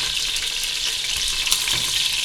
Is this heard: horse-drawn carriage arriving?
no